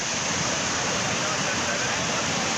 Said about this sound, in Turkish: Keles ilçesinde sağanak sele dönüştü. Önüne ne geldiyse sürükledi, bazı evleri su bastı.